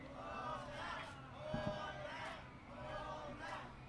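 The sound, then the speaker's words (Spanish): A live audience at a concert chants for an encore after a song, with a rhythmic crowd cry repeating in steady pulses at a moderate level. “Fíjate, jefa, que acabamos de cantar la canción de Partidos y Candidatos y el público cantó el coro y hasta nos pidieron otra. Mira cómo el público nos pide otra, jefa.”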